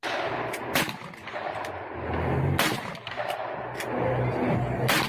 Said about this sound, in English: He shoots a gun.